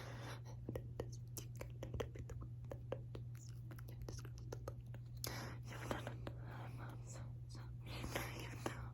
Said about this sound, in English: I'm just gonna skip right to the bridge and I'm gonna write that on your forehead.